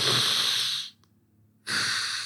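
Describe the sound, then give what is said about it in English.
Breathing out through one nostril during an alternate-nostril breathing exercise: two long, airy exhalations of steady hiss, separated by a short silent pause, with no talk. “And then you breathe out through the other nostril like that. So you go.”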